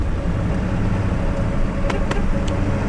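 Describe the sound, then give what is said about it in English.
A car engine droning steadily as the vehicle drives away from a house to head out on the road, a constant low rumble with a few faint ticks near the end. “Done all the pre-flight checks. Everything is good to go. And I am driving away”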